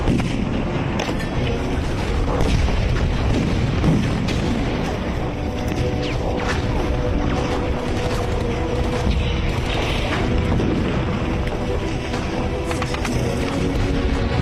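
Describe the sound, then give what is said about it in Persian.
Cannon fire aimed at a target in battle: heavy booms and blasts recur over a dense, continuous rumbling din that stays loud throughout. “به شماره هفت تو بخش چهار رو با توب بزن.”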